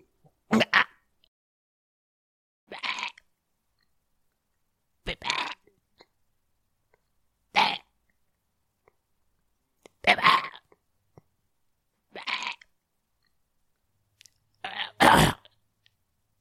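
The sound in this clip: A person coughs after a feather from a feather boa goes down the throat. Seven short, harsh coughs come spaced apart, with silence between them.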